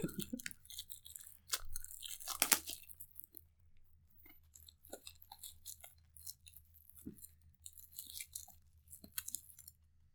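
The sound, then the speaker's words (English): An unopened package is crinkled and torn open close to the microphone. Faint, sparse crackles and rips come in short bursts separated by brief pauses, with no talk. “Oh, unopened. Hold it up to the mic so we can get that sweet ASMR going. Yeah, I should have waited until you were mid-sentence to open this.”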